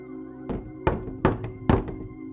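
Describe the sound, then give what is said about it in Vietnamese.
Knocking on a door as wind blows in the yard outside: four heavy, dull thuds spaced roughly evenly over a steady low background hum. “Lẫn trong tiếng gió ù ù ở ngoài sân, tiếng gõ cửa vang lên.”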